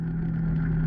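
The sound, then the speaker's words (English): An all-terrain vehicle ridden on a forest trail gives a steady, low engine drone, continuous and unchanging through the brief moment. “This is the sound of an ATV rider on the nearby Whiskey Springs all-terrain vehicle trail system.”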